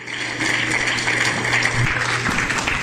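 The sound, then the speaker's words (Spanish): A church audience applauds in dense, steady clapping that holds at an even level throughout, with a low hum beneath. “Denle un aplauso, Señor.”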